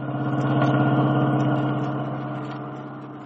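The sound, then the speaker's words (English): Car engine droning steadily as the car drives home at night from a dinner party, a smooth mid-pitched hum that swells early on, then slowly eases off and softens. “We find them now driving home from this social affair.”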